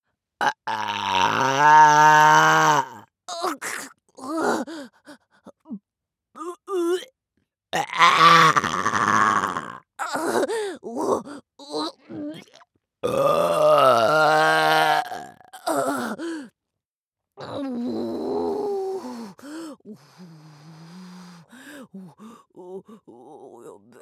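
Loud, voiced burps from a man, many in a row with pauses between, some short and others drawn out and rumbling, heard alone without other talk.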